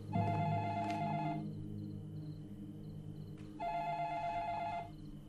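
Telephone bell ringing twice, each ring a buzzing, tonal burst of about a second and a half separated by a pause, faint over a low steady hum.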